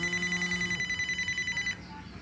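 A telephone rings with a rapid, warbling electronic trill that pulses steadily at a bright pitch, then cuts off shortly before the end.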